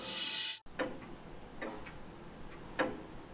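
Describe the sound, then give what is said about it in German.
Clocks ticking in a clock-making workshop in Pforzheim: a few sharp, faint ticks over a soft background hiss, after a brief burst of other sound that cuts off abruptly. “In dieser Werkstatt scheint die Zeit stehen geblieben zu sein. Und doch erwacht sie hier erst zum Leben, in einer Uhrenmanufaktur in Pforzheim.”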